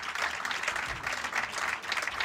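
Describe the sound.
Audience applause greeting a list of named contributors, a continuous patter of many hands clapping, moderately quiet with small swells in intensity.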